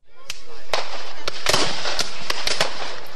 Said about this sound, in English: What you're hearing is a 2013 reenactment by Civil War buffs.